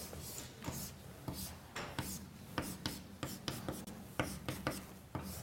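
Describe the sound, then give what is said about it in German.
Chalk writing on a blackboard during a chemistry lecture: faint, dry scratches and taps in a quick, irregular rhythm, with many short strokes and no talking. “will ich das an dieser Stelle auch noch einmal an die Tafel schreiben”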